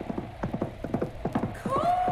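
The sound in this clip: Hoofbeats of a horse galloping across a wasteland, a quick, steady clip-clop of many beats. A high, tonal, wind-like moan enters near the end.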